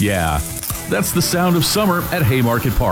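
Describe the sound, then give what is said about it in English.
Food sizzling at a ballpark concession stand at Haymarket Park, home of the Salt Dogs, a soft steady hiss running under a man's voice talking throughout. “Sizzling concessions.”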